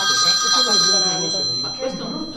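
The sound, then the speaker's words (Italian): An iPhone ringtone sounds as a bright electronic ring with sustained high tones, while a person talks over it and the ringing fades partway through. “Ma questo brutto squillo che c'è. Sì, ragazzi, le sorprese dell'iPhone.”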